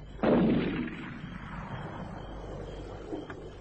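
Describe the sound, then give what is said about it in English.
A single loud gunshot fired at a big tree, a sharp blast followed by a long, rumbling decay that fades out over about three seconds. “He's round the bend shooting at trees. Get that gun from him”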